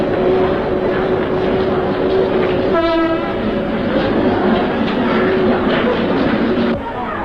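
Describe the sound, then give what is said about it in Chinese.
A train arrives at Otake station, its steady rolling rumble running throughout. A single short horn blast sounds about midway and stands out above the rumble. “请您不要忘记自己随身携带的东西。大竹车站到了。”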